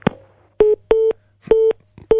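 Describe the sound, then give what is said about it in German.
A telephone is dialed with touch-tone keys, giving four loud, short beeps at uneven intervals after an initial click. Each beep is a steady tone with no voices. “kannst du bitte ähm, nochmal bei Herrn Schröder anrufen?”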